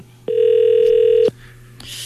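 A telephone ringback tone heard while calling someone: one steady electronic tone lasts about a second, then stops, leaving faint background hiss.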